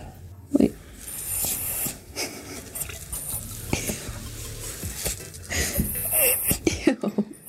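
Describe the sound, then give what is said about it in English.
A pet breathes heavily into the microphone, making irregular wheezy, snuffly breaths with snorts and hissing puffs. The breathing is fairly quiet overall, with a few sharper bursts. “Kermit, will you breathe into the mic to end it, please? Oh, yeah. ASMR on me, Kermit.”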